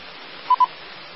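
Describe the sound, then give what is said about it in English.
A phone alert sounds as two short, identical mid-pitched beeps in quick succession, clear above a faint hiss. “Yeah, my phone's going off now.”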